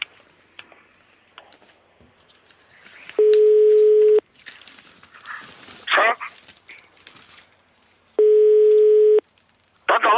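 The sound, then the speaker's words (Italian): Two evenly spaced telephone ring tones on a line, each a steady low-pitched buzz lasting about a second, separated by a long pause filled with faint background sounds. “Un telefono che squilla”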